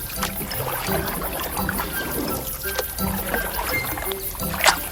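Water sloshing and washing around a small boat as it arrives, a dense, steady churning texture with a sharper splash near the end.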